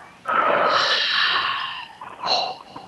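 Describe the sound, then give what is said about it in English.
A deep breath drawn in through the mouth: a loud, airy rush lasting over a second, followed after a short gap by a briefer breathy sound. “Take a breath. I want you to breathe in through your mouth.”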